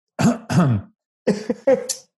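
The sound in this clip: Throat clearing from phlegm after drinking beer: two rough, husky bursts, then after a pause a longer run of choppy clearing sounds ending in a sharper rasp.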